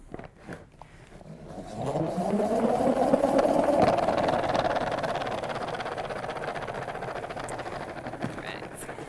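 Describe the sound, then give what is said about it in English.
A salad spinner whirs as it spins washed kale dry, its hum rising in pitch and swelling to a peak, then settling into a steadier, softer whir that slowly fades. “So we'll give it a shake. We'll bring it back over here. We'll put it in our spinner, and we'll spin it dry.”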